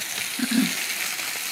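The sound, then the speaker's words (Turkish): Steady sizzling hiss of meat frying in a pan with sauce, a continuous bright crackle at moderate level with a faint low bubbling in the middle. “Şuraya etlerimi alacağım. Benim için oldu etler. Öyle zaten sosumla da piştik.”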